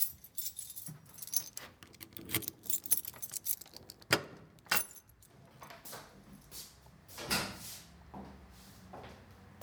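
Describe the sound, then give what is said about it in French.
Keys jangle and click in an apartment door lock that was mounted upside down, with irregular metallic rattles and sharp clicks rising and falling at a fairly quiet level, and no talk. “ces clés-là, il faut la prendre dans l'autre sens. Ah bon ? Parce qu'ils ont monté la serrure à l'envers.”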